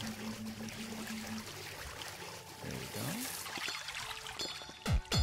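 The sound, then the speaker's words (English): Splashing and trickling water as a character swims through deep water in a video game. The watery noise is steady, and brief tonal game sounds come in near the end. “Oh, and we got water. The water's deep. So we're gonna swim.”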